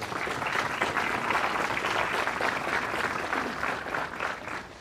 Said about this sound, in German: Deswegen möchte ich erstmal einen ganz großen Applaus, dass Sie heute sich getraut haben, hier dabei zu sein.